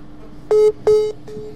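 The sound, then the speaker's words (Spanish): Telephone dialing tones sound as a dropped call is reconnected: three short, steady electronic beeps, the first two loud and the third fainter, over a low background hum. “hubo un pequeño corte, ahí recuperamos la llamada con Pipón”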